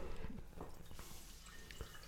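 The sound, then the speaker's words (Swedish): Wine being poured into a glass gives a faint, steady trickle of liquid with soft dripping, quiet and continuous throughout, without voices. “Vi ska få smaka den nu alltså. Så nu häller jag upp lite.”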